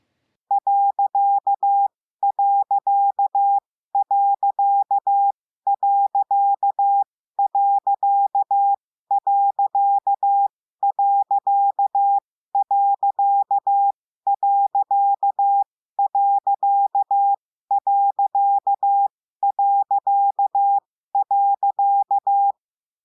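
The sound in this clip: Morse code period character sent as a steady CW tone. The dit-dah pattern of six short beeps repeats 13 times, with brief even gaps between groups.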